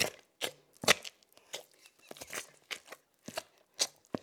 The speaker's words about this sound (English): is pummeling cooked apple pulp through a food mill. It's the beginning of something called apple butter.